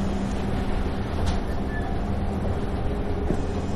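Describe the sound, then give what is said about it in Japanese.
A Tokyo Monorail ordinary train to Haneda Airport Terminal 2 runs with a steady, even rumbling drone that continues without break, with a faint high tone above it. “東京モノレールをご利用いただきましてありがとうございます。”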